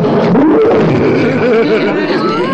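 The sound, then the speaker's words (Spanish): A lion roars in one loud, sustained, rumbling growl that wavers in pitch and lasts about two and a half seconds. “¡Ay! ¡Un león! ¡Ay!”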